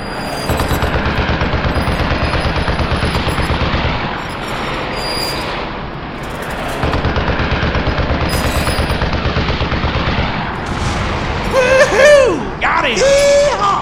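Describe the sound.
Rapid machine-gun fire from a bomber's tail gun, long continuous rattling bursts with brief breaks, ending with high wavering whines over the shooting.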